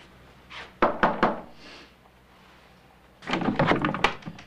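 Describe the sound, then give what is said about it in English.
Knocking on a hotel room door, heard as a few soft, dull knocks, then after a pause a longer cluster of quiet thuds and taps. “On the second floor, he knocks on the door of a room.”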